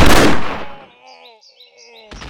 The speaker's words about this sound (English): He sighted the second warrior and squeezed the trigger.